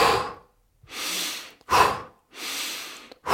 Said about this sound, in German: wir machen Hyperventilation, bei dem wir, ich kann es auch mal vormachen, durch die Nase einatmen, also und dann durch den Mund aus.